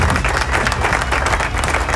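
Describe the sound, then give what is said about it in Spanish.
Applause greeting news of an online metal festival's fourth edition: a dense, steady patter of many hands clapping, moderately loud, throughout the short stretch. “Argentina Online Metal Fest, así que aplauso.”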